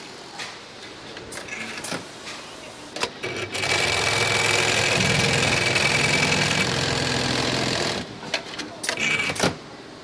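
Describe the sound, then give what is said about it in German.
An industrial sewing machine stitches zips and labels into covers, starting with scattered mechanical clicks, then a loud, sustained buzzing run of about four seconds, then a few more clacks. “Da kommen wir jetzt zu Nähmaschinen her. Ja, das ist eigentlich der Bereich, wo jetzt die Hülle noch von Hand genäht wird. Vom Reissverschluss einnäht, die Etikette einnäht und dann eigentlich die Hülle zumacht.”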